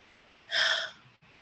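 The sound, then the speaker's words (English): A sharp, sudden intake of breath: one airy gasp lasting about half a second, loud and hissing, with no talking around it. “I had to take a breath right there.”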